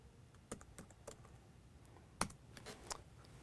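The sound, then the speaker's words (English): Faint, irregular key clicks of a password being typed on a computer keyboard: scattered light taps with one sharper press midway, alone over low background noise. “Type in my password again.”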